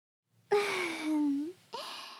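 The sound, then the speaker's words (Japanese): Heavy breathing after exertion: a long voiced, groaning exhale that sinks in pitch, then a second, shorter breath, both quiet and with no talk. “このくらいで一旦休憩ですね。息遣いも荒くなって汗かいてますよ。”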